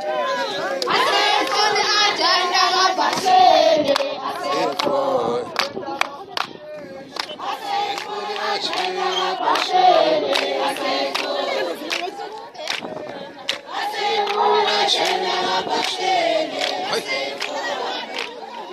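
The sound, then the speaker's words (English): Amadiba community members waiting for a meeting with mining company representatives, a loud crowd chanting and singing in unison with sharp hand claps, surging in waves over nearly twenty seconds. “This is the sound of the Amadiba community waiting for a meeting with representatives from the mining company Mineral Resource Commodities.”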